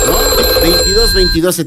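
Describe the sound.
A telephone ringing with an incoming call, steady high electronic ring tones sounding continuously while a voice talks over them.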